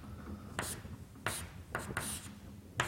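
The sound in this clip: Green's first theorem is written out on a board, a handful of short, dry scratching strokes separated by brief pauses, faint and alone.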